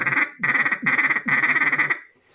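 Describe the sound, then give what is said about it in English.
A duck call is blown to imitate a duck's quack, giving loud, nasal, rasping quacks in quick choppy bursts with short gaps between them, and no voices. “Those are fun and nifty, but you really don't need them to call ducks. Stick with the basics. Learn the basics. Again, the quack and the greeting call.”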